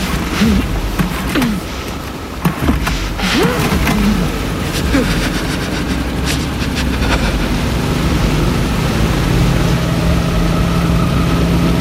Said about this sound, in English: Get the motor going. Get the motor going.